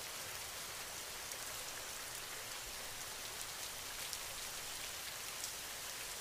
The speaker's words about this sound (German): Dein Körper fühlt sich so richtig entspannt an, je mehr du dem Regen zuhörst.